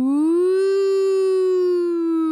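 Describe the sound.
A person's voice imitates an ambulance siren in one long, loud, sustained wail that rises slightly at first, then holds and slowly falls, with no other sound.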